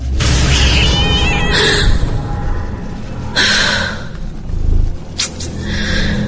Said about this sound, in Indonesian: astaga, ternyata kucing. Lagi-lagi kucing.